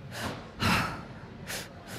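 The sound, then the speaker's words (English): Rhythmic breathwork, with breaths drawn first into the belly, then the chest, then released, comes through as a few soft, airy breathy bursts, fairly faint and with no talk. “you breathe two breaths into, okay, first your belly, then your chest and then out.”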